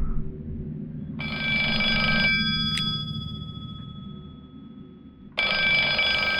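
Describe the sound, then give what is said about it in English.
Telephone ringing sound effect: two bursts of a bright electronic trilling ring, separated by a pause of about three seconds, over a steady low hum. “It means it's time to make a phone call. It means we've got voicemail.”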